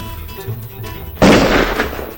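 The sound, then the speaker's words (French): A single rifle shot is fired in the dark, bursting loudly and abruptly out of a quiet, low background and trailing off in a rough, noisy decay. “passe-moi le fusil. Tu vas réussir à tirer dans le noir?”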